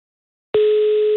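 A telephone tone while a number is called, a single steady pitched tone that starts abruptly after half a second of silence and holds at an even loudness.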